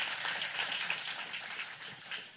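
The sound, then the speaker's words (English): An audience at a church service gives a round of applause. The clapping is steady, dense and fairly soft, rising and falling slightly without a clear break. “Give them a round of applause.”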